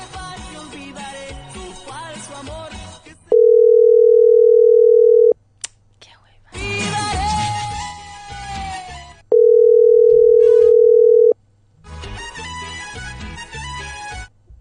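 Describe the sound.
A telephone call goes unanswered. Two long, steady ringback tones each last about two seconds, with voices and music between them.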